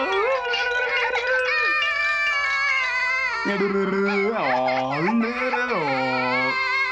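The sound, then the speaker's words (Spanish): Loud, continuous wailing cry of a child, its sustained tones wavering and jumping up and down in pitch without a break and with no talk over it. “¡Mira, ya dejó de llorar!”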